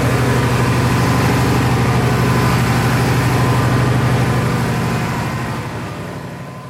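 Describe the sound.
A biogas-fuelled combustion engine drives a generator at a sewage plant, with a loud, steady low drone and a rough, throbbing hum that holds even throughout and eases off slightly in the final seconds.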